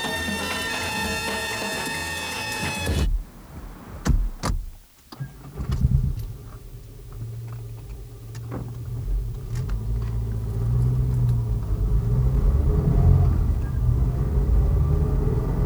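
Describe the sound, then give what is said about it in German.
A car engine starts after a few short knocks and bumps, then settles into a steady low rumble that continues as the car drives on, with road noise holding level to the end. “Aber steigen Sie ein, das Auto wartet.”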